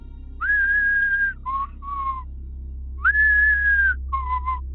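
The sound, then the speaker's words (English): A person whistles a tune imitating a stranger dressed in black walking around a village at dusk. It comes in two clear phrases. Each phrase is a long held note followed by a few short, lower notes, over a low steady hum. “there was this guy dressed all in black walking around the village, whistling like,”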